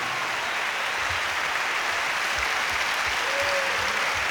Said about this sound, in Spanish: El aplauso para mis compañeros músicos y cantantes de Puerto Rico.